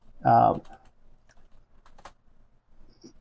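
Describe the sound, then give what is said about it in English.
Typing on a computer keyboard: a brief voiced sound opens, followed by a few sparse, faint key clicks spread irregularly over the rest of the moment. “Okay, I'm typing it in right now.”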